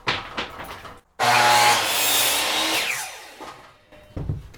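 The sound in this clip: A saw cuts a long piece of wood with a loud, sustained rasping whine that lasts a couple of seconds and fades as the cut ends. A few short knocks of handling come before and after.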